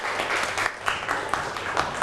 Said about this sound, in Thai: ปรบมือให้กลุ่มที่6อีกรอบหนึ่งครับ